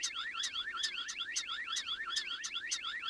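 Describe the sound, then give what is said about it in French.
A starling mimicking a car alarm, near a parking lot, gives warbling, wavering whoops with regularly repeated sharp high chirps in a steady looping pattern, moderately faint and without voices. “on entend un étourneau qui est capable d'imiter toutes sortes de sons, dont des sons artificiels, et en l'occurrence là c'est une alarme de voiture qui reflète qu'il était localisé autour d'un parking”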